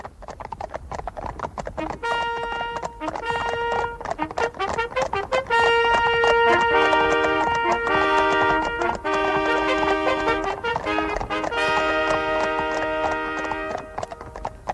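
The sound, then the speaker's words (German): Horse hooves clip-clopping in a steady rhythm as riders set off for a hunt, mixed with sustained musical tones. “Er reitet zur Jagd in den Sauwald. Die Vorreiter springen voraus,”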